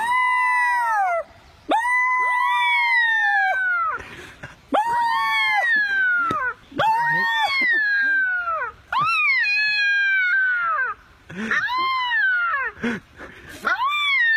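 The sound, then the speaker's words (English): A baby coyote howls in a series of high, wavering calls that swoop up and down, with short breaks between them. The calls are thin and loud, and some break into yelps near the end. “you see a baby coyote, and it just starts howling. Now, I've never heard a baby coyote howl before, but it turns out it's one of the cutest things in the world, and here it is.”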